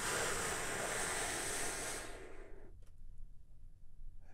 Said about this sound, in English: And we do that by taking a big, deep, healing breath with me right now. Here we go.